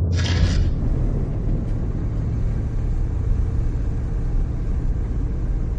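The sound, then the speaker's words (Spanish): A car speeds along a two-lane road, heard as a loud, steady, continuous rumble of engine and road noise that holds even throughout. “un coche viaja a toda velocidad por una carretera flanqueada por dos de luz”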